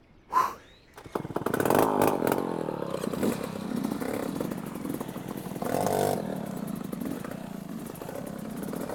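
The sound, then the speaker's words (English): A two-stroke motorbike engine revs during an off-road race while the bike struggles with a gearbox that cannot change gear. A short burst comes first, then a steady, buzzing drone that swells again midway. “Not even sure if this bike will make it. Can't even change gear.”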